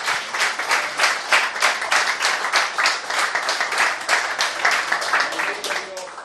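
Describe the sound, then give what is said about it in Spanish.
An audience applauding during a Spanish-language church service, a dense, steady patter of many hands clapping in a brisk, even rhythm that holds at a fairly constant loudness from start to finish. “Dele un aplauso al Señor en esta mañana.”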